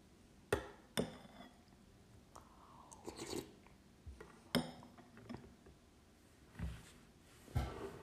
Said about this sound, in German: ASMR-Essgeräusche